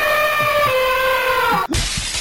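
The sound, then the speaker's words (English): Glass crushing as a sound effect: a ringing, tonal layer runs for over a second and a half, then cuts off abruptly into a dense, loud burst of crunching noise that carries on to the end. “Glass crushing.”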